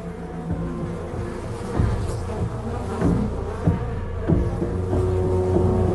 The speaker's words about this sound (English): opens her eyes to the swarming insects